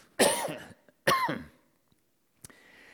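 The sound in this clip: Two harsh, rasping coughs from a tickle in the throat, each followed by a quieter tail. A faint throat click comes after them, and no one speaks.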